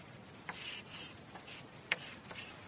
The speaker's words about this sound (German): Ich schreibe es mal hin.